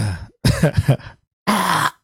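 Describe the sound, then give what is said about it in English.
Throat clearing into a microphone, repeated often. Two harsh bursts: the first breaks into several short, rough voiced pulses, and after a brief pause a steadier, scratchier rasp follows. “Busy clearing my throat every 5 seconds.”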